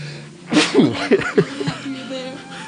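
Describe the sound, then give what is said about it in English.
One sharp, loud sneeze bursts out, followed by a few short, softer voiced sounds that trail off into quiet. “This movie made me sneeze.”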